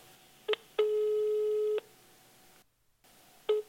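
Telephone line tones as an outgoing call is placed. A short beep comes first, then a steady tone of about one second, a silent gap, and another short beep. The tones are faint and clean, with no voices.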